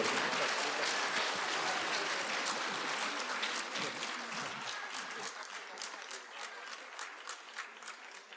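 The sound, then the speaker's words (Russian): An audience applauds at an award ceremony and gala concert, with dense clapping that slowly thins into scattered, separate claps toward the end. “Аплодисменты ваши!”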